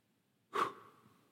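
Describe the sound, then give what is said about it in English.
A single breathy exhale from a preacher during a funeral sermon, one short burst with a sharp onset and a soft fading tail, quiet and alone. “An exhale.”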